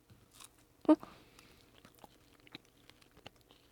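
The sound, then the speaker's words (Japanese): A bite into a thin waffle filled with jam gives one sharp crunch, followed by faint, soft chewing noises. “薄くなったワッフルにこう中にジャムが入ってんのかな。いただきます。”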